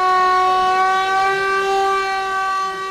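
An air-raid general danger warning siren sounds in Mostar on the anniversary of the Old Bridge's destruction, a loud, sustained tone held at a steady pitch that eases slightly toward the end.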